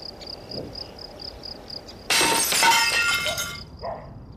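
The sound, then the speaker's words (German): Glass shatters as a stone is thrown through a small village shop's window: a sudden loud burst of breaking glass lasting over a second, then scattered tinkling fragments, over a steady, faint chirping of crickets. “Beim größeren schmeiße ich den Stein durch die Scheibe und schlage mit dem Stock die Splitter aus dem Rahmen.”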